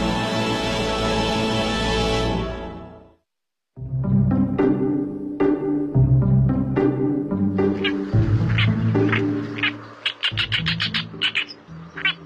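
Oriental reed warbler calling: a sustained, harsh, buzzy note that fades out, then after a brief pause a long run of loud, grating, chattering notes delivered in an uneven, repetitive rhythm.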